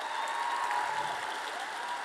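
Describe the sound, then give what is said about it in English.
Audience applause fills a slam poetry event: a steady, dense wash of clapping that holds at an even level throughout. “Keep that applause going, and let us welcome to the stage the next poet, Lucinda.”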